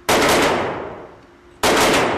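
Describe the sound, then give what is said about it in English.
Two loud, sharp gunshots from a semi-automatic pistol at a shooting range, about one and a half seconds apart, each with a long reverberant tail. “There's a woman learning how to shoot and a man firing a semi-automatic pistol.”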